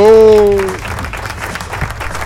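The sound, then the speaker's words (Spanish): Applause from a crowd at a rock-themed gathering: a dense, steady patter of many hands that follows a brief voice at the start and continues at an even level to the end. “Aplauso. ¿Dónde están los aplausos?”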